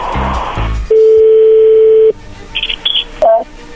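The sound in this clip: An outgoing telephone call produces a steady, low, humming dial tone that holds for just over a second, followed by a few short, high dialing beeps and a brief final tone.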